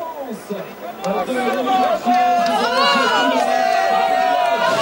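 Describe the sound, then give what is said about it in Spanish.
Spectators at a cycling race finish produce a steady, loud wash of crowd noise and overlapping chatter as riders arrive and embrace their helpers, with voices talking over it throughout. “Se oye más al público que hay abrazándose con sus auxiliares.”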